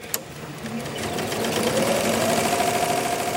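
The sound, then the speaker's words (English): An industrial embroidery machine runs in a factory that makes aircraft seat covers, giving a fast, steady mechanical chatter over a droning hum that stays even and continuous from start to finish. “This is our embroidery machine here.”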